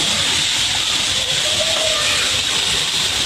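Water boiling hard on a briquette stove gives off a loud, steady steam hiss that holds unbroken for the whole stretch, with no pauses or separate bursts.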